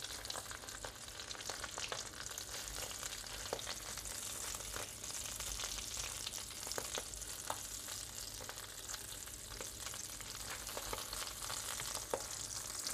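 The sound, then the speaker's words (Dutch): Sausages browning in a frying pan, a dense, steady sizzle with constant crackle and scattered sharp pops throughout, and no talk. “En nu kan ik eventjes eerst de worstjes aanbraden voordat ik dadelijk die... Eh, voordat ik ze dadelijk in de oven zet.”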